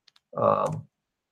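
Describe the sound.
Computer keyboard typing as a combination is entered: two faint, quick clicks, then a short, soft burst of rapid keystrokes lasting about half a second.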